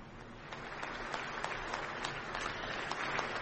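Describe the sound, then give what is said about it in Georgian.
Standing ovation from the Ukrainian parliament for Polish president Andrzej Duda: dense, sustained applause from many hands that holds steady and builds slightly toward the end. “ფეხზე ადგომით და ტაშით შეხვდნენ პოლონეთის პრეზიდენტს.”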